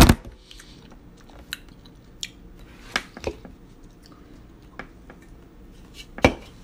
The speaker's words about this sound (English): Currently live eating a big-ass giant chicken barbecue pizza slice.